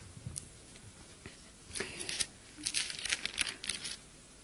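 Paper script pages being handled: faint crinkling and rustling, with a few soft crackles early on, then denser crisp rustles and page flicks over the last three seconds, with no talk.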